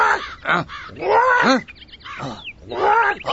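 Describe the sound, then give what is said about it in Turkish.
Harsh crow caws, a few loud, rasping calls in separate bursts with short gaps between them. “Karga da üstüne çıkmış, onu yemeye çalışıyor.”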